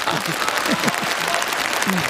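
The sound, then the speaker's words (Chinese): Audience applause at a lively live event, a thick, continuous patter of clapping with a few short vocal calls and cheers rising above it. “掌声鼓励。”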